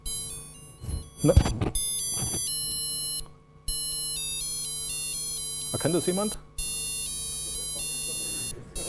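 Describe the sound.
A microcontroller beeps out a ringtone melody as a series of bright, buzzy electronic notes that step up and down in pitch, with two short silent gaps. A voice briefly speaks over the tones twice.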